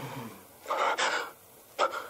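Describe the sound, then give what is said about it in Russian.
A man takes a deep breath: a long, rushing inhale of about half a second, followed after a pause by a shorter breathy burst, with no speech. “Резко выпрямляется. Делает глубокий вдох.”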